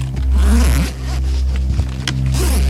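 A small suitcase being unzipped and opened: two loud zipper pulls, a short one followed by a longer, scratchier run with a few clicks near the end.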